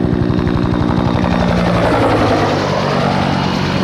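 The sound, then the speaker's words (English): A helicopter flying low, about 20 to 30 feet above a beach: loud, steady rotor chop with a fast low throb that gives way to a broader roar as the craft passes over. “if you hear this funny sound in the background, it's a helicopter flying about 20, 30 feet off the beach, and it's gonna pass over right about now.”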